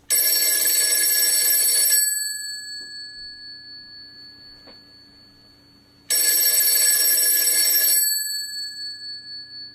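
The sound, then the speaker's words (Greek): A telephone bell rings with an incoming call from Greece, two bright, sustained bursts of ringing separated by a few seconds of near quiet, loud and with no voices. “Κάποιος παίρνει από Ελλάδα.”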